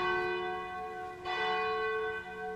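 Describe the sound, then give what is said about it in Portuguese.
A cathedral church bell tolls with a rich, sustained humming ring of steady overtones. It is struck again partway through, and the ringing carries on alone without voices. “bate o sino da Catedral de Nossa Senhora de Aparecida.”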